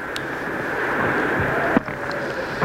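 A windstorm howls on a dark night in the mountains, a continuous rushing roar with a thin steady whistle running through it and one brief knock partway through.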